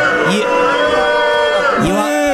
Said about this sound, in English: You are absolutely right to boo those two.